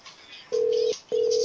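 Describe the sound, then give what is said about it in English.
A telephone rings on an outgoing prank call to a store, heard as two steady, even-pitched ringback tones with a short gap between them. The second tone is cut off at the end, and both sit over a low hiss of background noise. “I guess this phone is just going to keep on a ringing.”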